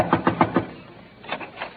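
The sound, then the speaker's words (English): Knocking on a door: a quick run of four firm raps, a short pause, then a few more raps. “All right, knock on the door. She's waiting for you.”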